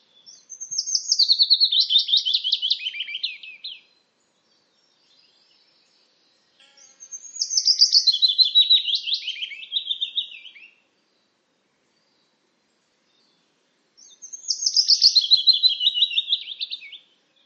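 Bird song in three separate phrases, each a high, wavering trill that steps downward, somewhat like a woodlark's song but with a gentler descent. The phrases are divided by short silences, with no voices.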